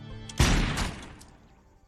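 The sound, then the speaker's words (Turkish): A single rifle shot fired during aimed shooting practice, the trigger pulled at a target's chest: one sharp, loud blast with a rumbling tail that fades away over the next second. “Şapkayı mı hedef aldın? Hemen aşağısını. Göğsüne hedef aldım. Tetiği çektin. Sıkmadın.”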